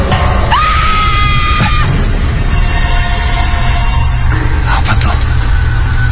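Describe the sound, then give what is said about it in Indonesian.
Loud screaming from downstairs on the ground floor: a held, high cry lasting about a second over a dense, noisy background. “aku mendengar suara teriakan sangat kencang dari arah bawah, dari lantai 1.”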